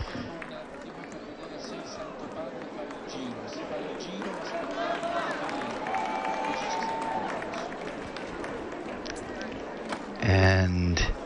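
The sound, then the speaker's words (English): A crowd in a small Italian town chants in unison, greeting the Pope. The crowd noise is continuous, mixed with some applause, while a voice speaks over it. “And the coordinated chant there of Long Live the Pope. Fancy Ventolfo is a fairly small town, and”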